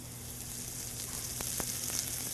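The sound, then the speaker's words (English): Green onions sizzle in about a tablespoon of hot oil while being stirred quickly with chopsticks, a steady, fairly quiet hiss of frying with a couple of brief clicks. “And just using chopsticks, you gotta move really fast so you can cook the green onions evenly. And you create this green onion oil”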